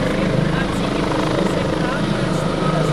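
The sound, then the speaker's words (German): An ADAC rescue helicopter landing: a loud, steady rotor and engine roar that fills the whole clip, with a voice under the noise. “Christoph 1, das ist mit der bekannteste Rettungshubschrauber vom ADAC. Der hat mit dem Flying Intervention Team erstmal nichts zu tun. Aber noch während er landet”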